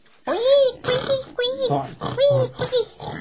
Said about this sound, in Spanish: Puercos guaguas, sí, jugando en el charco. Un charco de agua, unos bonitos puercos eran.